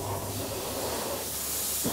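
Steady hiss of compressed air blowing dust out of a combine harvester, including off its hot engine, a continuous, fairly faint rushing noise with no breaks.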